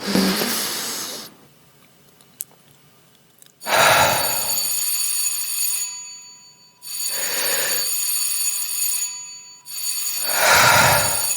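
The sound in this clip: Electric bell signal ringing for the third time before a theatre performance, a loud, harsh, sustained ring repeated in several long bursts separated by short silences.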